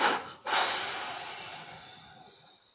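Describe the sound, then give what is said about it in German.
Two exhalations from a person during a relaxation exercise: a short breathy puff, then a longer, softer exhale that trails away, with no talk. “Und doppelt ausatmen.”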